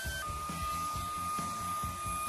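SenseIQ vacuum cleaner running as it cleans a floor, a steady whirring drone with a soft rhythmic pulsing as it moves back and forth, continuous throughout.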